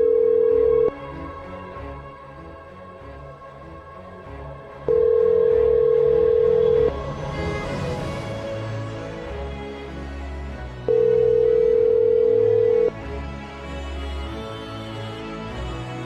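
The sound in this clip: A telephone ringback tone sounds while a call waits for pickup: three steady, even tone bursts about two seconds long, separated by longer pauses, over a quieter background bed.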